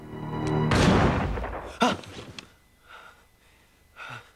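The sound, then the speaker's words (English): A rifle gunshot rings out as a sharp, broad blast with a long decaying tail. A few fainter, breathy bursts follow, all fairly quiet. “A finger pulls the trigger on the rifle in Jim's dream.”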